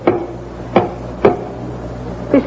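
Four sharp knocks on a tunnel wall believed to be weak and thin, spaced unevenly and standing out clearly above a low steady background.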